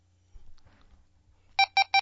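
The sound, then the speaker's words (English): A two-way radio beeps as its PL tone setting is switched off, giving four short, evenly spaced tones after some faint handling noises. “Turns your PL on and off. Off is a low beep.”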